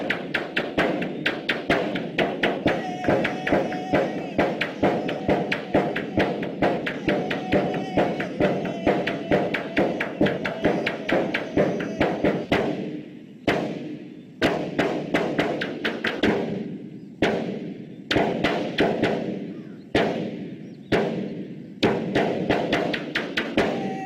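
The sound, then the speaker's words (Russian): Men banging on a pipe in rhythm, a steady, fast run of many even thumps that continues throughout, briefly breaking into spaced groups of knocks in the second half. “Парни стучат по трубе.”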